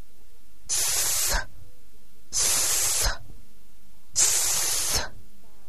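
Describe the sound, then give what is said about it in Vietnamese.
A voice imitates a snake's hiss in a speech-practice game for children, giving three drawn-out, bright 'sss' hisses of under a second each, separated by evenly spaced pauses. “đó là tiếng rắn kêu.”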